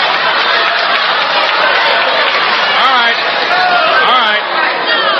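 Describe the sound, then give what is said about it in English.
Studio audience applause at a quiz show, a steady, dense wash of clapping and crowd noise that runs the whole time, with voices faintly audible through it. “Where's your sportsmanship? Let's have some hands. Let me hear you.”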